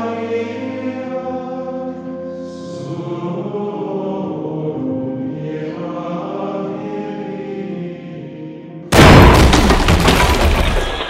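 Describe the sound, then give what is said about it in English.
A sword blade shattering during a medieval sword fight: a sudden loud, harsh burst of breaking noise that keeps clattering to the end, cutting off long sustained musical tones. “What have you done? The blade is shattered!”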